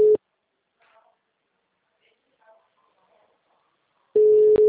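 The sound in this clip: A telephone ringback tone sounds on a call as a steady mid-pitched tone, heard as a short cut-off tail at the start and again as a new burst near the end, with near-silence and faint sounds in between.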